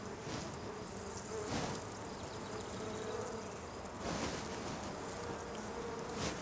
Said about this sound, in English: This one's covered probably about 1/8 with bees.